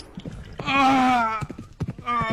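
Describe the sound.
Horses gallop with quick, irregular hoofbeats, loud and percussive, broken midway by a sustained tonal cry.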